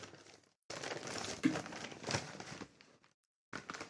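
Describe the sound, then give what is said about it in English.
A hand-painted sock being cut open, giving loud bursts of crinkly, rustling scratching separated by two short silences. “Currently cutting the sock open.”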